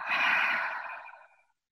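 A single long breath drawn in during slow breathing practice, one breath per word of a prayer phrase: soft, airy and breathy, steady at first, then fading away over about a second and a half, with no talk.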